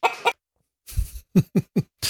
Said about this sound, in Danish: Det går faktisk et par høner rundt her